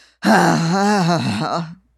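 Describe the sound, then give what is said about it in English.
A voice imitates an exaggerated, extremely loud sigh: one drawn-out, groaning exhale of about a second and a half, voiced and slightly wavering, heard alone. “he'd shift in his seat, roll his eyes, and sigh louder than I've ever heard anyone sigh. It was so loud that I'm barely comfortable calling it a sigh. It was like a”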